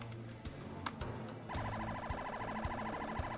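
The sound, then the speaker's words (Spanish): Emergency sirens from a police patrol car and an ambulance responding to a call at a university dormitory: a loud, rapid warbling wail that starts abruptly partway through and holds steadily over a low rumbling background. “Una patrulla de la policía y una ambulancia acuden a la escena.”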